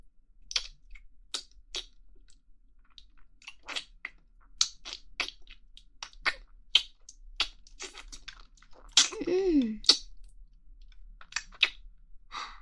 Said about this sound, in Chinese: 我接下来继续吃雪糕的样子了，嘿嘿。来，我们继续吃。